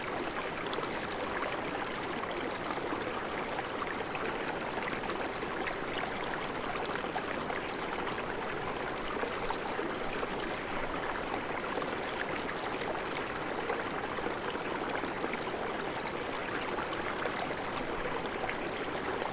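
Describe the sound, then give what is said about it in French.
Water flows in a stream with a soft, unbroken rushing and burbling that stays even and quiet from start to finish, with no voices. “et inscrire en vous-même le chemin de cette eau qui coule.”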